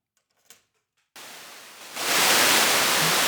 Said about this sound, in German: Das heißt, ich ziehe jetzt einfach die Klinke ab, stecke die in so einen Rauschgenerator rein.